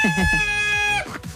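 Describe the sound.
A rooster crows in one long, steady, high-pitched call, with talk running beneath it and continuing after it ends.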